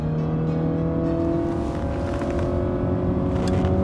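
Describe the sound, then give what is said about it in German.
A car speeding along a road gives a loud, steady engine drone with a sustained tonal hum that holds level throughout, with no voices. “Wow, seid ihr immer so schnell mit diesen Autos hier auf der Erde unterwegs?”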